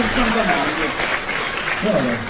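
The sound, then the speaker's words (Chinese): Steady applause from an audience at a live stage performance of comic singing, dense and continuous through the whole clip, with a voice faintly over it. “可以鼓掌了”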